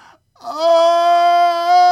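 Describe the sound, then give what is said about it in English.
A woman's long, loud wail of disappointment and misery, rising briefly at the onset and then held at a steady, strained pitch for over a second. “And a long, loud wail of disappointment and misery from his wife gave him courage to run down to her side.”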